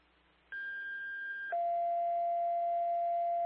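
Fire station dispatch alert tones: a steady high tone holds for about a second, then drops straight into a lower steady tone held for about two seconds, loud and clear with no voices.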